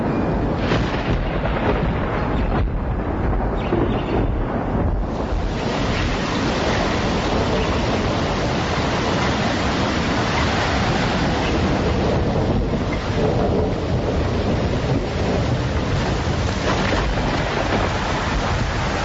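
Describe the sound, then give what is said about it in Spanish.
A thunderstorm with wind roars as a dense, continuous rushing noise, loud and steady from start to finish, with no distinct claps and no voices. “Una noche antes del invierno, llega una tormenta que parecía el resfrío del infierno, donde los árboles se vuelan”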